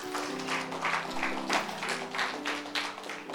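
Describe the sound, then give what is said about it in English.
Congregation clapping during a church training session, a dense, steady clatter of many hands that swells and dips slightly over a few seconds, with sustained low instrumental tones underneath. “Clap for Sasipo as he sits.”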